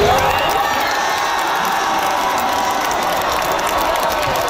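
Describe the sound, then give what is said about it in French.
A large crowd cheers and applauds at a World Cup football fan festival in Vancouver after France's win sends it into the semi-finals, a dense, steady roar of clapping and shouting without a pause. “ce que vous entendez, c'est la foule au Fan Festival de Vancouver après la victoire de la France, qui lui ouvre la porte d'ailleurs des demi-finales, oui, de la Coupe du Monde de soccer”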